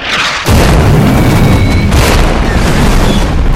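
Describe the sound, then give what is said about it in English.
Flak shells bursting as an audio-drama effect: a loud, deep explosion strikes after a short lead-in and gives way to a heavy, unbroken roaring rumble, threaded with thin, high whistling tones. “gigantic flak bursts explode into screaming black tendrils, punctuated by crackling white-hot electric green neon lightning.”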